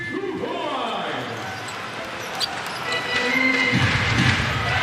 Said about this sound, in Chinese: 比较随意的往篮板上一扔啊，正面的打板投进。